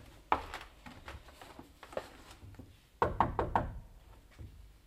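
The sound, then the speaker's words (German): Knuckles knocking on a hotel room door: one firm rap followed by a few lighter taps, then after a pause a quick, louder cluster of several knocks. “Klopfen wir nochmal. Offenbar doch schon weg.”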